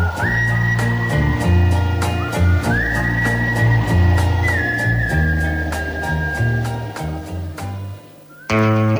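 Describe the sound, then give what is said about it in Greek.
A sweet whistled melody over a steady musical backing with a regular beat. The whistle glides up into long sustained notes across several phrases, loud and clear, and the accompaniment shifts abruptly just before the end. “Αυτό το γλυκό σφύριγμα.”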